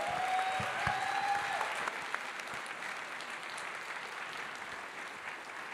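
A church audience applauds to welcome a new pastoral team. The clapping is warm and sustained, easing slightly after the first couple of seconds but continuing to the end.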